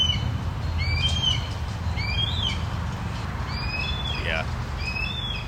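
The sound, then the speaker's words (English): A red-tailed hawk gives a single descending, raspy cry that stands out among many short, high chirps from other birds over a constant low background rumble. “that's a red tail. Funny, I'm realizing that's a red-tailed hawk call that blue jays imitate a lot.”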